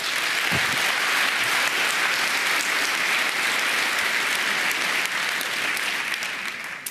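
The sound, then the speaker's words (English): Conference audience applause welcoming a speaker: dense, even clapping from a large crowd, sustained at a constant level and thinning slightly near the end. “Give him a warm welcome,”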